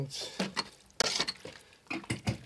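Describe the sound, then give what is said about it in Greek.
Stirring of pasta in a cooking pot, with oregano just added. Several scraping, clinking strokes come in short irregular bursts, some louder than others, with no talk over them. “Ένα καλό ανακάτωμα τώρα που είναι...”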